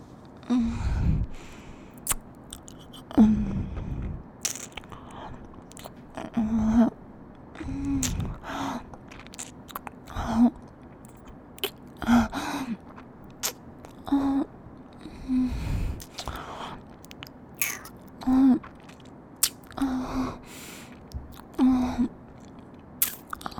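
Crunchy biting and chewing of food being tasted: many short, crisp chomps that recur at an uneven pace, fairly faint, with quiet gaps between them and no talk.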